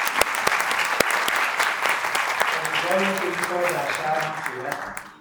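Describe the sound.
Audience applause for an honoree at a university gathering: dense, steady clapping from many hands fills the whole stretch, fairly loud and even, with no clear pauses.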